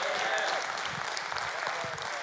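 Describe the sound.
Clapping from an audience in a church, a dense, even wash of applause that holds at a steady level from start to finish.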